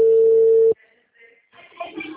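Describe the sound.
A telephone call tone: one steady, loud beep lasts under a second and then cuts off. Near silence and faint, scattered noise follow.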